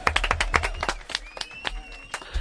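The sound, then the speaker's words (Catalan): An audience at an improvisation show claps briefly: a quick, rhythmic burst of claps that thins out after about a second. “Un aplaudiment.”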